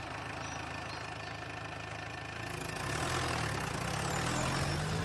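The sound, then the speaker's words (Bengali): A sturdy jeep's engine runs with a steady, faint mechanical drone that grows somewhat louder and rougher about halfway through, with no voices. “একটা বেশ মজবুত zip গাড়ি।”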